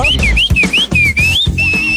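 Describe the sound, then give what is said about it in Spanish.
Whistling attributed to a goldfinch: a quick run of clear, high, slurred notes that swoop up and down, ending on a longer held tone, over dense low rumbling noise. “Ese es un jilguerillo que les chifla.”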